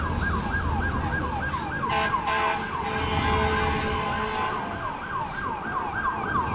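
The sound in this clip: A fire engine siren wailing in rapid, repeated rising-and-falling sweeps, continuous throughout, with road traffic rumbling underneath.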